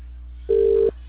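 A ringback tone on a phone line while calling someone: one steady, mid-pitched tone lasting under half a second over a low, constant hum.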